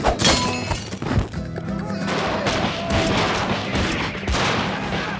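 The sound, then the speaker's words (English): Gunshots from soldiers firing inside a barracks, a quick series of sharp thudding reports with the first hit loudest, set against a dense, continuous noisy backdrop. “Dodging the bullets at the last second, Zorro dove into the shadows”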